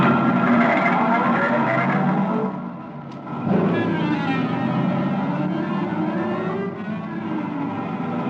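A new car driven fast gives a loud, steady engine roar that dips briefly, then surges back and carries on with shifting pitch.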